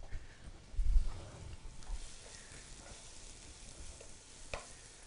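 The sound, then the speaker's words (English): Onion sautéing in olive oil in a pan, a steady faint sizzle with a louder stirring burst near the start and a brief tap toward the end. “I'm gonna saute the onion for about 3 minutes until it gets translucent.”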